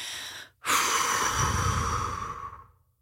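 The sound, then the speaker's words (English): A person lets out a deep exhale: a short intake of breath, then a long, airy, breathy outflow lasting about two seconds that gradually trails off into quiet. “you got to exhale, exhale,”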